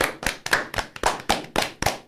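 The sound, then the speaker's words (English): One person clapping their hands in a steady, even rhythm: many sharp, crisp claps, evenly spaced and fairly loud, with no voices. “I'm giving that one a clap.”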